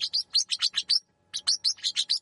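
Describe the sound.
Mature South American parrot calls, fast-paced and strident: two rapid bursts of about half a dozen shrill, high chirps each, separated by a short pause.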